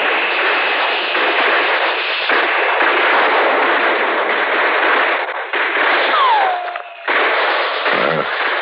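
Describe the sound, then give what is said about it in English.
Battle gunfire with bullets flying fills a war scene with a dense, continuous, thin-sounding roar of shots. Near the end a whistle falls in pitch and a low thud follows. “Those are real bullets they're shooting at us over there.”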